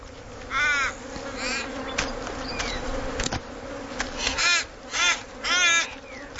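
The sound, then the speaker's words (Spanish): Ravens cawing in protest at a young eagle feeding: several harsh, raspy caws come in separate bursts, some clustered close together toward the end, over a noisy outdoor background. “Mientras una joven águila se harta, los cuervos protestan y el escándalo no hace más que proclamar su secreto.”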